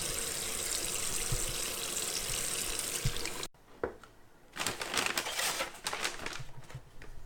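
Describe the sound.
Hands are washed under a running water tap, with a steady, broad hiss of flowing water. The water then cuts off and gives way to scattered clicks and rustling.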